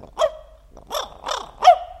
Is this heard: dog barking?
yes